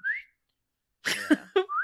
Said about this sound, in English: Because you know what it is it's the sound of them calling the hounds. Because you hear the whistle and then Morales goes, get the bloodhounds round.